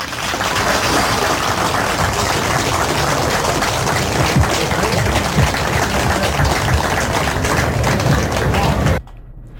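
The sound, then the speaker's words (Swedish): Applause from an audience at an award presentation at the Lustra market: a dense, steady wash of many hands clapping that holds loud for about nine seconds and then cuts off abruptly. “Och så är det fint om någon tänker det på sin plats och ger dig alla en stor applås.”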